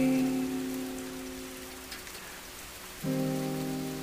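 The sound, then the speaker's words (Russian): Heavy rain falling as a dense, steady hiss, heard alongside sustained low musical tones that cut out briefly and return near the end. “И этот сильный дождь, мы одни.”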